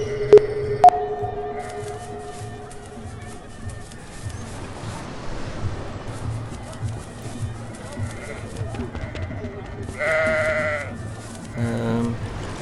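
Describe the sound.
Sheep and goats bleat in a farm video game. A few wavering bleats rise out of background game sounds while a man talks over them.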